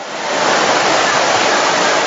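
Heavy rain pouring down while people hurry chairs and seats in out of the wet, a loud, dense, steady hiss that runs unbroken from start to finish.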